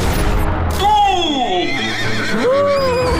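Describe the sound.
Horses neighing as a herd is chased, with a couple of long wavering whinnies rising and falling in pitch over a steady noisy background.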